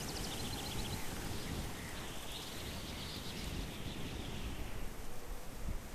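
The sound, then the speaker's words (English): Wind blowing through trees makes a faint, continuous rustling hiss that stays even throughout, with no pauses or distinct gusts. “Boy, the wind in these trees, boy, I tell you.”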